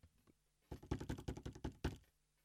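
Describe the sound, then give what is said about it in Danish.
A faint drum roll: a quick run of many soft, even strokes lasting about a second, ending on a slightly separate final hit, with a couple of light taps before it. “Det var lige en lille trumvivl, som man næsten ikke kunne høre. Nej, den er der. Men der er udslag på den.”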